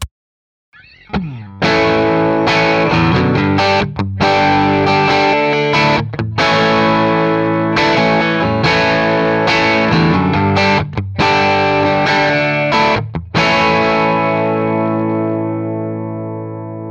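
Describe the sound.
Distorted electric guitar played through a short two-foot speaker cable, strumming several loud, sustained chords separated by brief gaps, with the final chord ringing out and slowly fading.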